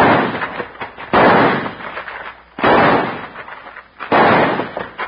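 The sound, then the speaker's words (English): Gunshots fired in a radio drama: three loud, booming blasts about one and a half seconds apart, each with a rough, lingering decay. “Let me blast away at him to spoil his aim while you try to toss that gun through the window.”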